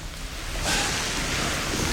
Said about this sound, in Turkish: Yağmur bu yarışı daha da zorlaştırıyor